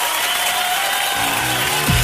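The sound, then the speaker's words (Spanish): Applause from a group, a continuous hiss of clapping at a strong, steady level, joined near the end by a low tonal hum that swells briefly. “Mira, un aplauso, pero buenísimo.”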